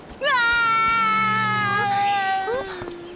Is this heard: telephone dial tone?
no